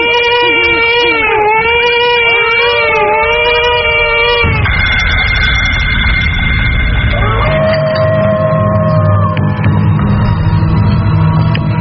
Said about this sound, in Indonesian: aku krungu ning swara bayi tangis